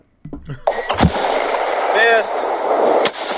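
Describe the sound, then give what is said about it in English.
Gunshots striking fire extinguishers: a few sharp bangs, then a loud, sustained pressurized spraying hiss, a brief voice over it, and one more crack near the end. “Look, there's probably a YouTube video of it. There is. Look, shooting fire extinguishers.”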